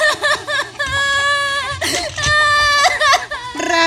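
A girl crying in loud, wavering sobs and wails, the pitch bending up and down in drawn-out cries broken by short catches of breath, continuing throughout.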